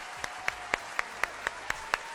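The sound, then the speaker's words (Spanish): Hands clapping live in a studio: nine sharp, evenly spaced claps at a brisk, steady tempo, each crisp and distinct against a quiet background. “¡Hasta aplaudo en vivo!”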